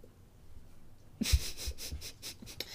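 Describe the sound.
Faint wet licking and snuffling as two dogs, one of them an elderly female, lick each other's mouths. A quiet stretch gives way to many short, rhythmic slurping bursts.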